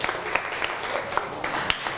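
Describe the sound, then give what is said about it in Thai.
A classroom of students applauds a classmate, a steady and fairly loud patter of many hands clapping together throughout. “นั่งแล้วครับปรบมือให้กับเพื่อน”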